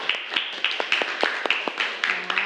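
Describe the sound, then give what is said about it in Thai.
Classmates clap for a fellow student during a classroom lesson. A small group gives sharp, quick claps in an uneven rhythm at fairly low volume. “โอเคค่ะปรบมือเพื่อนหน่อยค่ะ”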